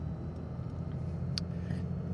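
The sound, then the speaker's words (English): A car on a 40-minute drive home at night gives a faint, steady low engine rumble, with a few soft, brief higher ticks above it. “And, yeah, so just going to drive back home. 40-minute drive. Not going to see a whole lot because it's night time”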